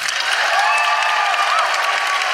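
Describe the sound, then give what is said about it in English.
A live audience breaks into loud, sustained applause, a thick and steady roar of clapping, with a faint whoop rising briefly in the middle. “And can I please have a huge round of applause for Chanel Miller,”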